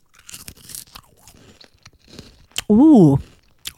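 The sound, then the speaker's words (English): A loud crunch of someone biting into a thin, curvy cheese snack like Wotsits, one short burst following quieter talk, with a brief voiced sound over the bite. “I'll say this, they're a lot thinner than a Watsit. A bit more curvy, a bit thinner. Look at this big bag I've got. Here we go. I'm going to taste one now.”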